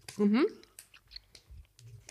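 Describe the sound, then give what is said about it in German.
Soft, sticky chewing of Haribo Rainbow Sauer sour gummy sweets. A short hummed voice sound comes first, then a few faint wet clicks and crunches. “Oh, also das waren jetzt die Haribo Rainbow Sauer, ne? Oh, lecker. Sind lecker.”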